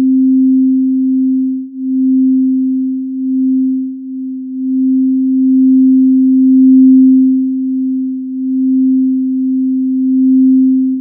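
A sonified astronomical spectral line 500 km/s wide sounds as a steady, pure low tone that holds one pitch, its loudness wavering in slow, uneven swells for about eleven seconds.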